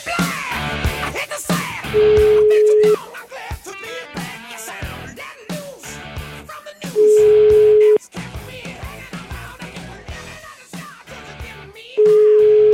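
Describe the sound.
Ringback tones of an outgoing telephone call sound as three long, steady, mid-pitched beeps at even intervals of about five seconds. Busy, varied sound fills the gaps between them.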